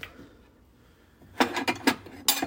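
A bowl is taken out in a kitchen for cereal. After a quiet first second there are a few quick knocks and hard clinks of dishware, then one more clunk near the end.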